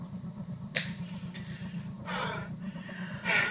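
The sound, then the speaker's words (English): Heavy, ragged breathing from people out of breath after a physical fight: a few loud, noisy gasping bursts over a low steady hum, with quieter breaths between them and no talk. “We're out of breath after trying to beat the crap out of each other.”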